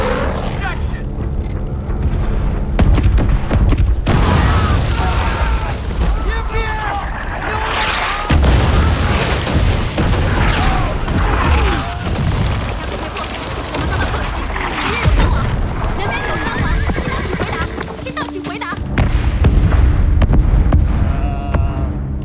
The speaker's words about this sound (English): Fire support, M155 loading, number 3 barrel loaded. Contact view, loading, fire!